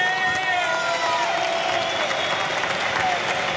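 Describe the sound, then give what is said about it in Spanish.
An audience applauds two padel players at a Premier Padel final in Valencia. Dense, steady clapping is mixed with cheering voices and a few whistles. “Fuerte el aplauso para Andrea Otero y para Ari Sánchez.”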